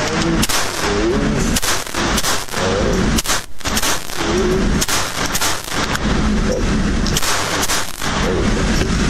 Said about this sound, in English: Talk about point and shoot. My gosh. Yeah. Got a couple of bullseyes on there. Scores look good.